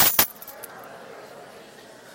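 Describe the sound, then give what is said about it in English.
A set of work keys jangles in a brief metallic burst of quick bright clinks at the very start, then fades to faint background hiss. “See, I've got a separate set. These are my work keys, and I keep them in separate pockets.”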